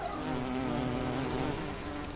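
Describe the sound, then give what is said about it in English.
A wool carder bee buzzes beside an old wooden fence, a steady, unbroken hum that stays at an even moderate level for about two seconds with no other sound. “An old wooden fence has not gone unnoticed. A wall carder bee has moved in.”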